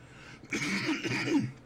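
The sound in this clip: Someone clears their throat because of a tickle: one rough, raspy burst lasting about a second, moderately loud, with no talk around it.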